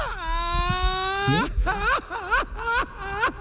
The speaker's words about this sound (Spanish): ¡Ay, hombre! ¿Por qué llora?